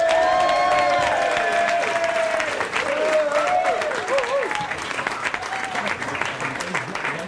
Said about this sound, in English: would you put your hands together and give a big warm welcome to James Gouldsbury?